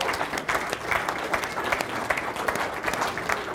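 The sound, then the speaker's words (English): An audience claps for a long-serving church elder, a steady wash of crisp, overlapping hand claps sustained for several seconds with small swells. “You're clapping for Don.”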